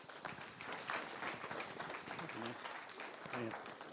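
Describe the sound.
Applause from a church audience welcomes a guest pastor to speak. The clapping is faint and steady, with brief voices rising over it toward the end.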